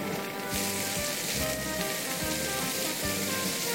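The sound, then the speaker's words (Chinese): Ginger and garlic sizzle in hot oil, a steady, fairly faint, dense crackling hiss that continues without a break. “但还是烧热一下，然后把姜蒜放去爆”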